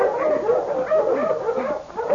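Dogs whimpering and yipping in a steady, whining chorus of wavering mid-pitched cries, with no talk over them.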